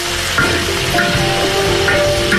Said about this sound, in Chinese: 鸭肉切块，放入油锅中快速煸炒。